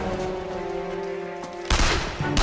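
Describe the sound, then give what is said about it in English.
Covering fire in a shootout: a loud burst of gunfire breaks in near the end over a steady tonal drone, followed by a slightly weaker burst. “Jack picks them off. Move, move, move! Jack changes his position as Renee provides covering fire.”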